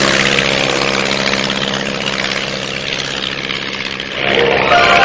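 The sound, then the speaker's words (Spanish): A light propeller aircraft runs along a runway and takes off: a loud, steady engine drone with buzzing propeller tones. It swells louder near the end as the engine works harder. “La avioneta recorre la pista. Despega.”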